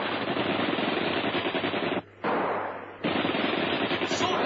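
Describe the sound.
Rapid machine-gun fire rattles in loud, continuous bursts, broken by a short pause partway through before the firing resumes.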